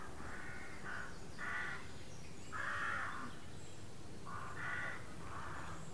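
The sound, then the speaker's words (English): Crows caw outdoors in a series of harsh, raspy calls, some spaced apart and some in quick pairs, standing out above a steady background hiss. “as you hear the squawk of the crows, can you tell where the sound of the birds ends and the hearing of it begins?”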